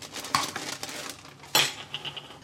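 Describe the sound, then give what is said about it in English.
A knife chops pickles on a cutting board while a sambal, lime and pickle mayo is made for a breakfast sandwich. A few sharp clicking knocks sound over a faint rustle, and a louder clatter comes near the end. “Let's chop some pickles.”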